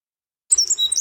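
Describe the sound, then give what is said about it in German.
Wren singing, a burst of high, bright chirps and quick trilling notes that starts after half a second of silence and fills the rest of the brief moment. “Der Zaunkönig. Diesen kleinen Vogel könnten Sie schon früh morgens auf einem Zaun sitzen sehen.”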